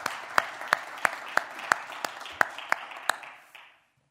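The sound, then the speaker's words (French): Church audience clapping in unison, a steady run of evenly spaced sharp claps at roughly three per second over a soft murmur, stopping abruptly just before the end. “Est-ce qu'on peut acclamer pour la gloire de notre Seigneur?”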